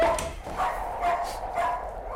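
Dog barking in short, fairly faint yips and whimpering barks, a few of them spaced irregularly over a low background hum.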